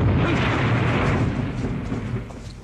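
An artillery shell explodes during the shelling of a walled town. The heavy, deep boom rumbles loudly and fades gradually over about three seconds.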